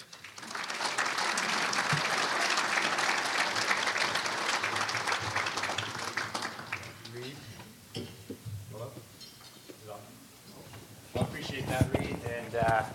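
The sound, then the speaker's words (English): Applause at a developers roundtable event as the panelists and moderator come on: dense, steady clapping for about seven seconds that then thins into scattered claps and softer noises before a louder stretch near the end. “You're going to hear applause, and then you will hear all the panelists and the moderator, Sean Zare, come on.”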